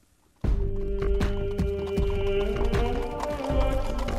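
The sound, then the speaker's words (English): Horses ridden at night through the desert: steady, rhythmic hoofbeats clop on without pause over a sustained droning tone. “Miles away in the desert, Ryan and the rest of the companions steadily rode on into the night.”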